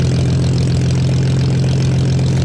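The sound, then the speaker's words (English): Spitfire aircraft engines run at Biggin Hill with a loud, continuous low droning rumble and a steady throbbing pulse, heard alone without talk. “we can see the engines going. Yes, we certainly can see those engines rearing up”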